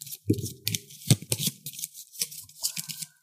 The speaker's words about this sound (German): Ich mische den Stapel nochmal durch.